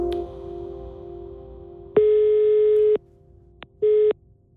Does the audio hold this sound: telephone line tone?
yes